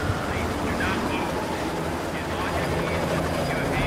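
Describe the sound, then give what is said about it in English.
A police helicopter hovers over a rooftop, its searchlight trained below, producing a steady, loud rotor roar with a deep rumbling throb that fills the whole clip without a break. “A helicopter's intense spotlight shines on the hitman.”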